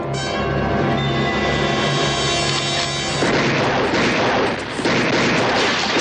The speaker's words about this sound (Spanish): Tras eso, dos hombres les disparan y Len y los suyos responden al ataque.